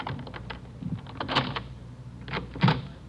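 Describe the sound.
An apartment door being opened: a few sharp clicks and rattles, followed by a louder thump near the end.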